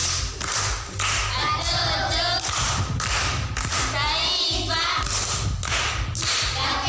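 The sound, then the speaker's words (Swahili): Applause for an aunt after she answers a quiz question among a group, a burst of dense clapping that keeps going for several seconds, mixed with voices. “Makofi kwa shangazi.”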